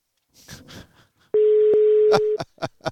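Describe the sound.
A steady, mid-pitched telephone ringback tone on an unanswered call sounds once for about a second, with people talking before and after it.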